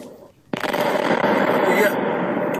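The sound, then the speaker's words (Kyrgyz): Artillery shells and mines explode in a fire at a military ammunition depot in Russia's Krasnoyarsk region. A sharp, loud onset gives way to about two seconds of dense, rapid crackling bangs and pops. “Разрывы снарядов.”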